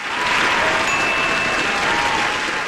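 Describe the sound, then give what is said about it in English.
Audience applause welcoming a performer to the stage, a loud, dense, sustained wash of clapping from the crowd that holds steady throughout. “I want you to put your hands together and welcome him to the stage.”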